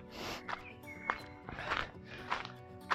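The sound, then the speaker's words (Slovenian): Faint footsteps of people walking around to recover after a running strength workout, a steady series of soft, evenly spaced steps. “Prehodimo se lepo, lepo.”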